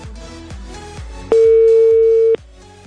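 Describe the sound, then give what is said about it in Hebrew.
A single steady telephone tone, as when dialing an airports authority office, holds evenly for about a second over a backdrop of rhythmic low thumps that repeat at a regular beat. “זה הזמן לחייג”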